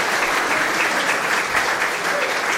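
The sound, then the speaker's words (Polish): Applause for a children's choir after their performance: dense, continuous clapping from many hands, steady and fairly loud throughout. “I myślę, że jeszcze raz należy im się brawo”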